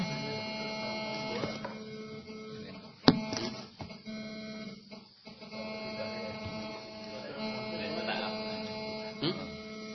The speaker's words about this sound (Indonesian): Belakang, kan? Belakang. Kayak mesin print ya, printer.